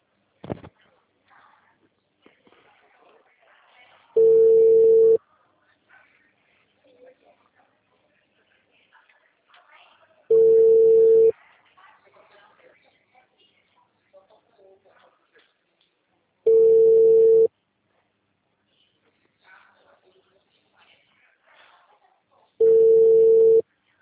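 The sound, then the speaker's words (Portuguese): A telephone ringback tone sounds while a call connects: four long, steady single-pitch tones evenly spaced about six seconds apart, with faint rustling and background noise between them. “Vai, tá chamando.”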